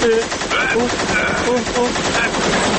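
Rapid machine-gun fire rattles on without a break for nearly three seconds, loud and dense, with a tonal, harmonic sound woven through the bursts.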